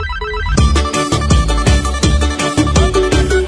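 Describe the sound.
A telephone ringtone plays loudly, a bright electronic melody repeating over a steady pulsing beat throughout.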